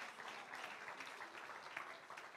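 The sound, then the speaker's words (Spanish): Faint, steady applause from an audience at a church service, offered in thanks to God: a dense, even patter of many hands lasting a couple of seconds without a clear break. “dale ese aplauso al Señor, dale ese agradecimiento a Él.”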